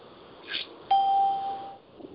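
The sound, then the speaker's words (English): An electronic doorbell chime sounds a single clear, steady tone that rings for about a second before fading. A faint, brief higher tone comes just before it, over a quiet background. “Ding dong!”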